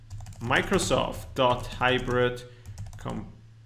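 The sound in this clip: Keys clatter on a computer keyboard as someone types a database query. Light, quick clicks run beneath a person talking steadily throughout.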